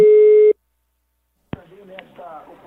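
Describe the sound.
A telephone line tone sounds while a call is being placed: one steady, sustained beep that cuts off abruptly. A pause of silence follows, then a sharp click and a faint voice on the line.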